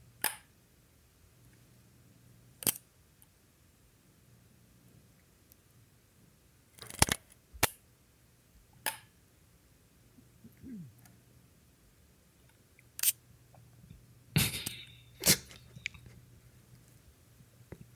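A film camera being wound slowly and carefully: sparse, sharp mechanical clicks and ratchet ticks at irregular spacing, with faint handling noise between them.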